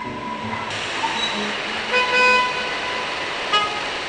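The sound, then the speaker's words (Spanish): Car horns honk in a traffic jam over a steady wash of street and engine noise. A few toots sound, with one longer blast in the middle. “En la siguiente cinta se ha grabado las reacciones de un hombre al esperar 6 minutos y medio en una esquina dentro de un auto en un embotellamiento.”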